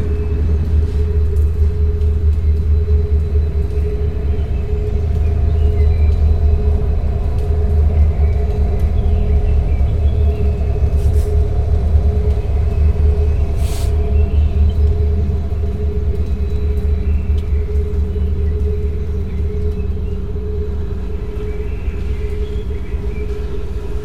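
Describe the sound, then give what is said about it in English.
Steady engine rumble of a vehicle driving along: a loud, continuous low drone with a constant hum running throughout and no talk. “I'm just driving along, that's why I'm not talking.”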